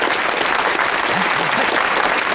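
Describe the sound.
An audience bursts into applause to welcome a speaker at a gathering, a dense, even roar of clapping that holds steady from start to end.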